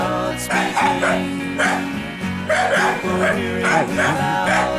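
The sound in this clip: A dying pet dog barks and yelps in a rapid, steady stream of many short, strained cries that keep going through the whole stretch.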